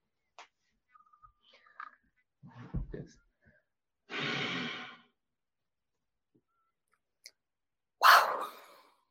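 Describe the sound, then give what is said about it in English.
A full, steady exhale rushes out for about a second after a few faint mouth clicks, followed by a long near-silent pause while an inhalation is mimed without drawing air, then a short breathy burst. “I exhale fully and then I will mimic an inhalation without actually inhaling, and that will draw the diaphragm up. And it looks like this.”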